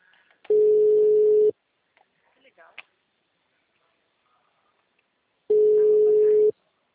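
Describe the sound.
Ringing tone of an outgoing phone call: two loud, steady, mid-pitched beeps about one second long, roughly four seconds apart, with faint handling noises in the quiet gap.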